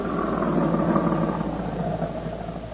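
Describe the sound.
Car engine rumbling as it drives up to the gate of a Defense Department storage depot, a low, steady drone that eases slightly toward the end.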